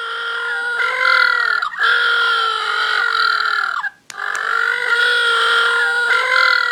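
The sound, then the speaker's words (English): Little blue penguins call in loud, harsh, braying honks with a strongly buzzing, harmonic tone, running almost continuously with two brief breaks. “if you're wondering what that is the sound of little blue penguins”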